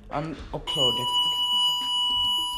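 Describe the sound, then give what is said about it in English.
A fire alarm cuts in after a brief moment of talk and keeps going, a steady, piercing, high-pitched electronic tone with a ringing harmonic character. It sounds continuously to the end, with a voice faintly underneath. “That's the fire alarm, so just don't worry about that.”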